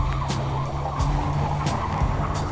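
A car engine idles and rumbles low as the car moves forward at a border checkpoint, with a few brief, higher squeaks cutting in at regular intervals over the steady drone.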